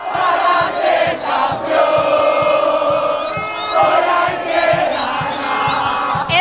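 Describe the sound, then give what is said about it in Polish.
Argentine football fans roar in a fan zone outside the stadium in Atlanta after a dramatic late comeback win, a loud, continuous, dense crowd din of cheering and chanting that holds steady throughout. “Zwycięstwo zapewnili sobie w dramatycznych okolicznościach, odwracając losy meczu w 85. i 92. minucie. Strefa kibica przed stadionem w Atlancie oszalała.”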